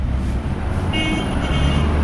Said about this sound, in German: Eine Hauptverkehrsstraße in der bolivianischen Andenmetropole La Paz. Auf mehreren Spuren drängeln sich Minibusse, Autos und Taxis aneinander vorbei.